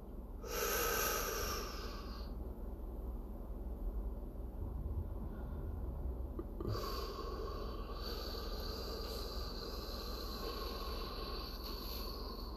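Deep breathing in and out during a guided relaxation exercise: slow, airy breaths with a breathy rush near the start and another long breath later, steady and fairly loud, with no talk.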